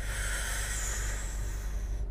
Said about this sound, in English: When you breathe in, your stomach goes out. So you breathe in,